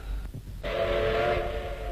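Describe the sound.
A loud, sustained train whistle sounds beside an armored train at a railway station, starting after a brief low rumble and holding a steady pitch to the end.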